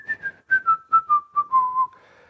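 A woman whistles into a microphone at a religious gathering: a run of short, breathy notes stepping gradually downward in pitch, ending on a softer held tone, with no talking.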